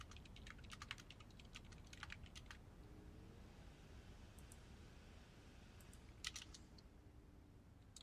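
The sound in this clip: Someone types on a computer keyboard in a back room of her home. Quiet, irregular clusters of keystrokes tap over a steady background hiss, with a few slightly louder clicks.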